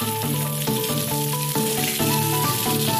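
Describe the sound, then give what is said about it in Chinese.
Chunks of winter melon, zucchini and purple-skinned potato fry in rapeseed oil with a loud, steady sizzle and crackle. Melodic music plays underneath throughout. “当地特色的米冬瓜、西葫芦、紫皮土豆切块后放入菜籽油中过油，炸出水分后便可捞出。”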